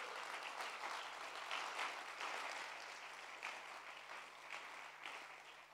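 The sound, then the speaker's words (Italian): A church audience applauds, dense and continuous clapping that swells slightly and stays fairly faint and even throughout, with no voices standing out. “Possiamo fare un applauso a Dio per questo?”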